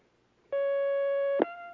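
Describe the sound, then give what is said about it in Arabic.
Telephone line tone on a call-in phone line: one steady, clear electronic beep lasting about a second, sounding alone and ending with a short click. “معنا مكالمة الآن.”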